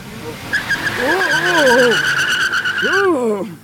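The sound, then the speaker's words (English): Tires squeal as an Americar car speeds away, a loud, sustained screech carrying a steady high whine with swooping, wavering squeals layered over it for about three seconds. “The Americar speeds toward the Indianapolis skyline.”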